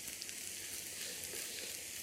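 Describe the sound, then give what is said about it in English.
Food sizzles steadily in a stainless steel pan after salting, a continuous even hiss of frying with no pauses and no talk. “Giving it some stirs and let it cook a little bit more. The thing with stainless steel, you know, it's not nonstick.”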